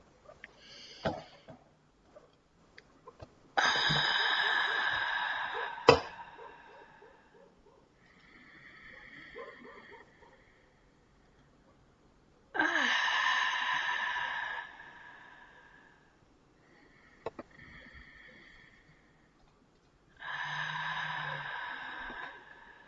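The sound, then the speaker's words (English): Slow, deep breathing from the diaphragm, with three long, loud, airy breaths alternating with softer, quieter ones and pauses between them, and no talking. “When we take a deep breath, really breathe deep from in your diaphragm, and go all the way up to your higher chakras. So let's do that now.”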